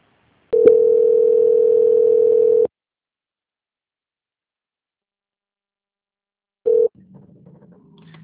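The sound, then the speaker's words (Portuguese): A steady telephone line tone sounds during a call transfer, holding for about two seconds before stopping. After a long silence, a brief burst of the same tone returns, followed by faint low noise. “peço que aguarde em linha, que eu vou transferir o contato para o controle de qualidade”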